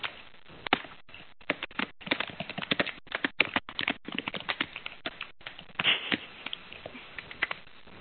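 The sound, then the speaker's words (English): Computer keystrokes from someone typing on a keyboard during an online call, many quick, irregular clicks in bursts and pauses, fairly faint, with no talk over them. “I can hear someone's keyboard.”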